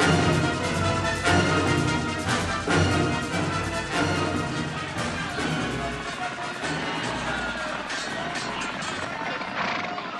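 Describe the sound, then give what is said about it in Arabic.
Horse hoofbeats and neighing in an Arabic audio drama scene before a duel, a galloping rhythm buried in a dense, loud, continuous mix of noise. “تقدم يا فرس الجروح، تقدم.”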